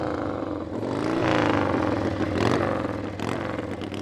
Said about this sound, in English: Just grab it, put it in gear, and fire it up and go. A 1928 Chief engine